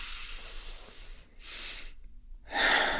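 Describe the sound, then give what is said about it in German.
A person takes a deep breath in and out, heard as two soft, airy, hissing breath bursts separated by a short silence, the second one louder. “einmal tief ein- und ausatmen.”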